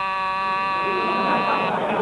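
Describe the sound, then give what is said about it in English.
A buzzer rings after a button is pressed, giving one steady electric drone with a harsh, buzzing tone that holds unbroken for the whole two seconds. “I press the button, the buzzer rings.”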